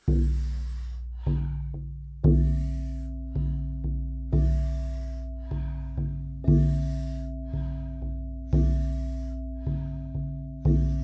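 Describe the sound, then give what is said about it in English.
Wim Hof breathing through the mouth, with powerful inhales and soft relaxed exhales, makes a steady rhythmic series of many airy rushes, each fading gently, over a constant low hum. “taking about 40 powerful breaths into the body through the mouth. The exhale is a soft, relaxing exhale, also through the mouth. And if we do it rhythmically, we do it together. It sounds like this.”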